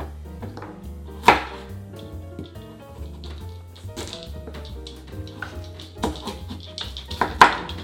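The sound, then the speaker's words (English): A knife slices carrot and asparagus into thin, long strips for a sushi roll, giving a few crisp taps on the board with soft scraping between them, fairly quiet throughout. “So I wanna slice up the vegetables, and you kind of wanna slice it up thin and long.”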